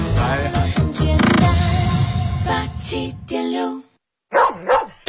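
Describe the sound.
Dog barks in a Year of the Dog liquor advert: two sharp barks follow a long stretch of loud, dense music.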